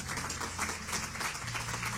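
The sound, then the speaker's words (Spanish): A church audience applauds in a dense, even wash of many hands clapping. The applause is quiet and held steady, with a low sustained tone underneath. “Es un aplauso al Señor, iglesia.”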